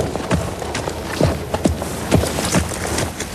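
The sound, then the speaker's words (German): Hoofbeats of a horse being ridden off an arena after halting and saluting before examiners at a riding test. A steady series of hollow thuds keeps an even rhythm, fairly soft over a light background hiss. “bringt Josefina vor den Prüfern zum Stehen und verabschiedet sich mit einem Gruß, bevor sie vom Platz reitet.”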